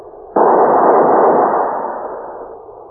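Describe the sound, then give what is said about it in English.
A rifle volley is fired as a funeral salute at a graveside: one sharp, loud, simultaneous crack that rolls into a long rumbling tail and fades over about two seconds. “ready to honor him with a volley from their rifles. Ready! Fire!”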